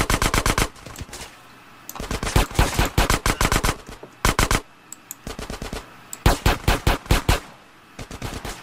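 Rapid automatic gunfire from a video game, loud bursts of fast repeated shots separated by short gaps, with one longer sustained volley in the middle and no talk over it.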